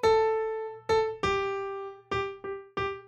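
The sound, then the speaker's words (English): The top voice of a piano part plays alone as a line of single notes, starting on B over a D chord and stepping downward. Six clear notes sound in a loose rhythm, each struck and left to decay. “It's all about the top voice in the piano part, which actually starts up on the B in that on that D chord, which is the sixth, and kind of walks down, where on its own, just the top part of the piano sounds like this.”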